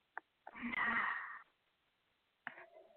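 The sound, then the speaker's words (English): One deep breath in, a breathy inhale lasting about a second, with brief faint clicks before it and after a pause of quiet. “So just take a deep breath in.”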